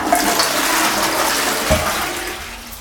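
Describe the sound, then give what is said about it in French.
A toilet flushes after the household water supply has been shut off, sending a loud, continuous rush of water through the pipes to drain them, steady from start to finish with no talk. “On tire la chasse d'eau”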